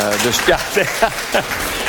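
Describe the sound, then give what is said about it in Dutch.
Applause from a gathering celebrating a couple's fiftieth wedding anniversary, a soft, steady wash of clapping beneath a speaker who talks clearly over it. “Dat applaus geldt voor mijn vrouw dan.”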